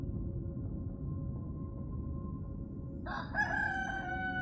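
A rooster crowing before dawn: one drawn-out cock-a-doodle-doo breaking in over a steady low background hum after a few quiet seconds.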